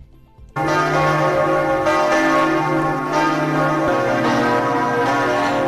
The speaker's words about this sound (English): for the first time in 5 years, the bells of Notre Dame in Paris rang again today.